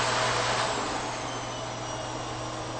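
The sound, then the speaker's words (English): A slider-controlled electric motor running at its lowest speed setting gives a steady, even whirring drone with a low underlying hum, continuous and unbroken with no voices. “So I can turn the motor, it's got a slider on the top, if you turn it all the way down.”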